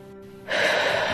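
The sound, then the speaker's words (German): A deep inhalation through the nose during a guided breathing exercise begins abruptly after a short hush and continues as a loud, steady airy rush to the end. “Atme ein.”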